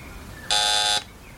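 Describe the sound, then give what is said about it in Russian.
An alarm signal goes off as a man tries to climb a tree to get over a psychiatric hospital fence. It is a single loud, flat buzz lasting about half a second over a low background hum. “Он пытается залезть на него, но раздается сигнал.”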